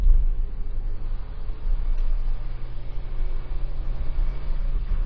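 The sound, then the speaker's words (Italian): A Ford Fiesta car drives up a very steep hill, giving a steady low engine drone and road rumble that runs unbroken at an even level. “C'è una salita molto ripida che percorreremo con la nostra macchina, che per la cronaca è una Ford Fiesta.”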